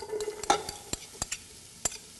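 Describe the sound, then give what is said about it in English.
Garlic and white onions fry in olive oil at the start of a soup over medium heat: a soft, steady sizzle broken by a few sharp clicks from stirring. “So I'm adding olive oil. We could use canola oil if needed. And I'm going to add garlic and white onions.”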